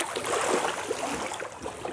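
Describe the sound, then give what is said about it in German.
Water churns and sloshes steadily as a seal slips into it, a dense, continuous rushing wash with no clear separate splashes and no voices. “Endlich mal ein Seehund, der freiwillig ins Wasser geht.”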